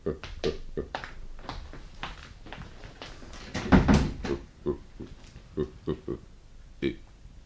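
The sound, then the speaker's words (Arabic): A door being shut, with a heavier thud near the middle among a series of smaller knocks and clicks spread through the scene. “طيب اخرج انت وقفل الباب علينا.”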